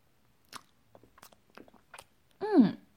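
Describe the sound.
Chewing beef: soft, moist mouth clicks and smacks come in small scattered bursts, then a voice gives a short hum that falls in pitch.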